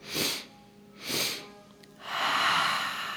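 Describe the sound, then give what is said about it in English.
Breathing exercise: two quick sniffs drawn in through the nose, then one long, steady exhale sighed out through the mouth that releases all the breath. The two short inhales are separated by a pause, and the breathy exhale is the longest sound. “So it's two sips of air in through the nose, and then a sigh out of the mouth, all breath released. So again, it sounds like this.”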